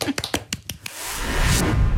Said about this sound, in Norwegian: Prøv det i dag. Klapp. Klapp for deg selv.